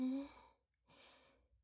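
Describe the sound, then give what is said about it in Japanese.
A slow, deep inhale through the nose during a guided breathing exercise: one soft, airy breath lasting about half a second, coming after a short stretch of voice and a brief pause. “ゆっくりと深呼吸。鼻から吸って、”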